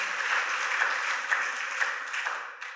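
Congregation applauding during a French-language church service, a continuous patter of many hands with a few sharper claps standing out before it fades slightly at the end.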